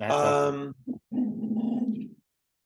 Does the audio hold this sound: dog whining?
yes

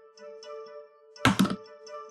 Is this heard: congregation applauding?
no

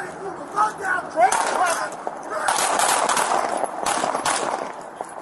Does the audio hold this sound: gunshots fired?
yes

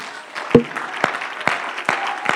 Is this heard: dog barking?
no

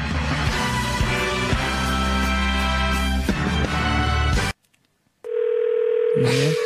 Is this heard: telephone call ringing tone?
yes

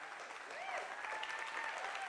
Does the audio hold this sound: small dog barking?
no

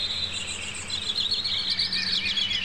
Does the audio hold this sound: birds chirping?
yes

